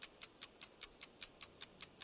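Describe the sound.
A quiz countdown clock ticks alone in a steady, even rhythm of about five crisp, bright ticks per second, each one short and light, with a faint hiss beneath.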